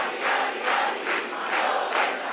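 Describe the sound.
A crowd at a PNV political rally in Barakaldo cheers and chants in loud, rhythmic swells, the massed voices rising and falling in steady repeated pulses.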